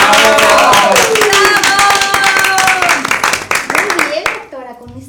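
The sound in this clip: An audience claps to welcome presenters at an event, many quick claps in a steady loud patter with voices over it, the clapping thinning out toward the end.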